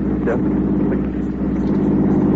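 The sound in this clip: A steady, loud low rumble of a truck engine fills the whole stretch, holding a constant level with no clear rise or fall.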